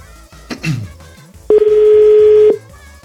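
A telephone call signal: a short noisy burst, then a single steady electronic line tone that holds for about a second before cutting off, with no talk.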